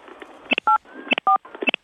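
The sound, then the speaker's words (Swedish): Telephone keypad tones as buttons are pressed, a quick series of short, loud, pure beeps in an uneven rhythm, some clipped and some held slightly longer, over a faint background hiss. “Om du trycker på tre valfria knappar på din telefon och du gör det”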